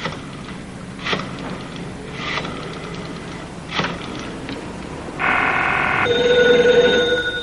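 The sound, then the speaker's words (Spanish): A telephone rings in a cafeteria phone booth. The loud, steady ringing tone starts near the end and follows a stretch of quiet background with a few dull knocks. “Twist telefonea a Lonegan.”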